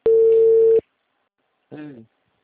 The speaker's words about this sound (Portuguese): The number is not answering.